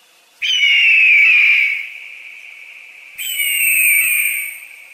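An eagle cries out in a gorge, its call echoing off the rock walls: two long, high, steady whistling screams. The first trails into a lingering echo, and the second is brighter with higher overtones. Loud and alone.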